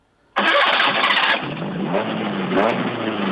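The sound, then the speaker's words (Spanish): A car engine cranks and catches with a loud, sudden roar, then settles into a steady, slightly lower running note. The car has a lowered body about 16 cm off the ground and sits stopped at a toll booth. “¿Se puede arrancar el motor, por favor? Se puede arrancar, sí.”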